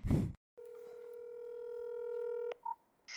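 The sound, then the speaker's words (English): A telephone dial tone hums steadily for about two seconds and then cuts off, followed by a short keypad beep and another tone starting. A brief burst of noise comes before the dial tone. “Dial it up.”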